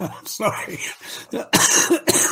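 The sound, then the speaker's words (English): A man coughs harshly while recovering from cracked ribs. Several rough bursts come in a broken series, with short pauses between them, and the last few are louder and more forceful. “Sorry. Boy, I'm still coughing up.”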